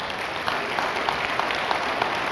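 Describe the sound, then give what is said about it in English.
Audience clapping, a steady, fairly loud patter of many hands with a few sharper claps standing out, with no voices. “Whoa. Two claps, and I still have more to say.”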